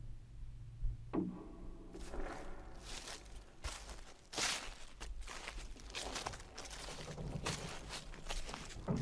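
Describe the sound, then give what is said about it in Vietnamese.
Slow footsteps approach on a cold, mossy, desolate mountain at night: many soft, irregular scuffs and thuds, quiet throughout, with no voices. “Tiếng bước chân rất chậm đã bắt đầu gần hơn, nghe rõ hơn.”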